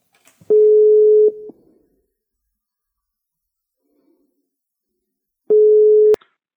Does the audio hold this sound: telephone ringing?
yes

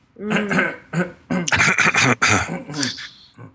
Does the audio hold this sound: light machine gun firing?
no

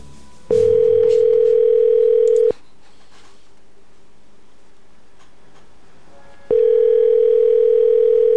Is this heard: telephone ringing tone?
yes

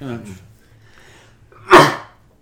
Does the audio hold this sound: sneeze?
yes

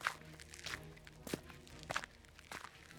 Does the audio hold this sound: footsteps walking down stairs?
yes

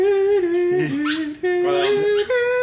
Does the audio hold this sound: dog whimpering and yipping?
yes

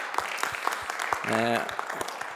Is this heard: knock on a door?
no

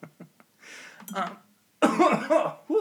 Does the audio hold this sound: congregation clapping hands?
no

